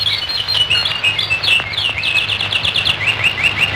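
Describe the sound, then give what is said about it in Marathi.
Birds chirping and twittering in green woodland among blue hills, with many quick, high-pitched calls in overlapping bursts over a steady low hum. “पक्षांची किलबिल गाणारे निर्झर”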